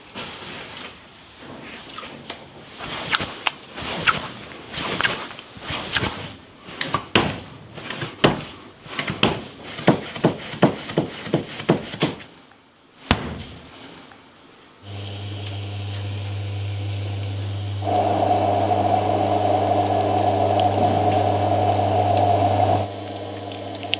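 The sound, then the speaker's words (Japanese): Kosuna ware, a traditional Tochigi pottery, being made: many irregular knocks and clacks of handwork, then a steady motor hum that continues with an added higher tone partway through. “今朝は焼き物作りのいい音栃木県の伝統工芸品小砂焼きそれではお聴きください”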